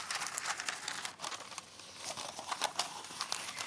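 Ordinary baking paper crinkles and rustles as it is folded in half and then folded again and again into a corner shape: a steady, fairly faint stream of crackly, papery crinkles with many sharp little rustles and no talking.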